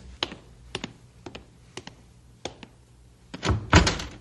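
A door being opened, heard as several sharp, spaced mechanical clicks and knocks followed by a louder, heavier thud and rattle near the end. No voices.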